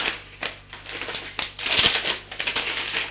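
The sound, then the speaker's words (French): Paper crinkling and rustling as a letter is slipped into its envelope: several short, crisp bursts of handling noise, fairly quiet, with no voices. “Elle met la lettre dans son enveloppe”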